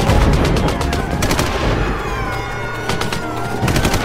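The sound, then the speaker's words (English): Heavy .50 calibre machine gun fire during a fight at a checkpoint: a loud, dense, continuous roar of rapid shots with a few sharper bursts and no pauses. “Keep firing with the 50 cals! Don't let them get past the checkpoint!”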